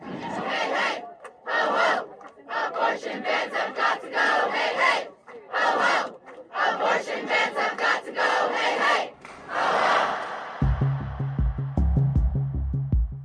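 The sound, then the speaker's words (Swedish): Protesters outside the US Supreme Court in Washington DC chanting over an abortion ruling: loud crowd chants in repeated rhythmic bursts separated by short gaps. A short musical figure of low tones enters near the end. “så där lät det i Washington DC häromkvällen när demonstranter protesterade utanför högsta domstolen i USA.”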